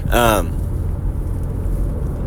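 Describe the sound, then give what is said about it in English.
A car driving on the road at 5:35 in the morning on the way to the gym gives a steady, low road rumble throughout, with a short burst of a voice at the start. “5:35 in the morning, and I'm just driving to the gym.”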